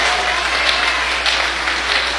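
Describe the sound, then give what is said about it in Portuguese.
A church audience of about 42 people clapping their hands in worship, a dense, continuous patter of many claps at an even level through the short clip. “Essas palmas aí estão aparecendo. Ai, agora sim.”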